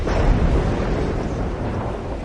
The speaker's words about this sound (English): It's a storm.